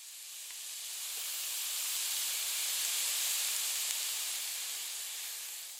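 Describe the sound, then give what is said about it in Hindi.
Steady sizzling hiss of potatoes and boiled peas with turmeric, green chili and asafoetida cooking in a pan, a continuous broad hiss that swells slightly through the middle and eases toward the end, with no talk. “हरी मिर्च, हींग और अब जाएगा जी इसमें आलू जो आपका favourite है, बॉइल्ड मटर और अब इसको थोड़ी देर पकाना है अराउंड 5 to 7 minutes.”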